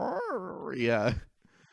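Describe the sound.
A dog with bad sinuses makes a congested, bark-like noise: one drawn-out, wavering nasal whine that ends in a short rough snort, followed by quiet.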